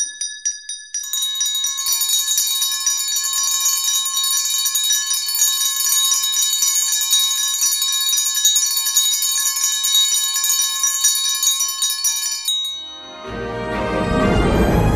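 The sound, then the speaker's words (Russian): A school bell rings for the first bell of the new school year, a bright, loud metallic ringing that holds steady for about eleven seconds before cutting off as a fuller sound takes over. “Звени, звени, звонок, наш первый, самый-самый.”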